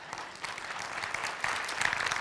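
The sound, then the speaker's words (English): An audience claps at Trinity Church: a dense, steady burst of applause that holds at an even level throughout, with a slight lift in intensity partway through. “Permission to clap at Trinity Church”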